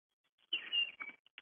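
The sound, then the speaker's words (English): A bird chirps outside a window: a quiet, high, twittering burst of chirps, then a few short separate calls. “I hear a bird in the background out your window.”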